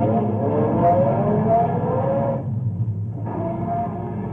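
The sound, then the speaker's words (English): A car engine pulls away as the driver steps on the gas, a steady rumbling drone that stays loud throughout and thins out briefly in its upper tones partway through. “Get in. My foot's pressing the gas.”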